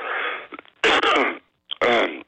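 A person coughs in a few harsh, loud bursts with short pauses between them. The last two bursts are the strongest.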